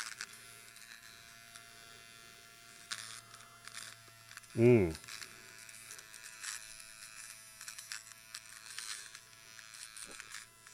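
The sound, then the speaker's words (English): Steady buzzing hum of an electric nose hair trimmer, new out of the box and never charged, running throughout at a low, even pitch with one brief louder burst midway. “Oh, that's so shaving my nose hair right now. Again, folks, I didn't charge this. This is out of the box.”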